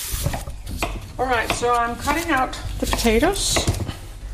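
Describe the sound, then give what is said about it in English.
A knife chops through washed potatoes, purple, red and regular with skins left on, giving a few short knocks mostly masked by a person talking. “All right, so I'm cutting out the potatoes.”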